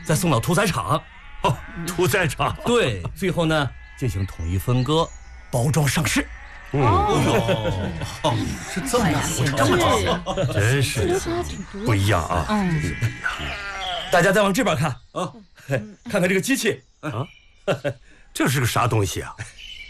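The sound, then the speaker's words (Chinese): Many sheep bleat on a breeding farm that raises pregnant ewes for local farmers, with loud, overlapping cries repeating throughout while a man talks over them. “你看那羊肥的， 这么多羊，哎呦”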